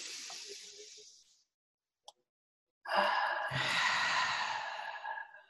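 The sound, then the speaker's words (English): A group of people inhaling deeply together: one long, airy breath, a short pause with a single soft click, then a louder, longer breathy rush that slowly fades. “let's inhale together.”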